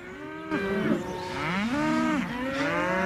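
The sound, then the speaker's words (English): Cattle mooing in crowded, rusty fenced enclosures full of ear-tagged cows. Overlapping low, drawn-out moos slide up and down in pitch, one blending into the next. “There are cows as far as he can see in all directions, crammed into rusty fenced enclosures.”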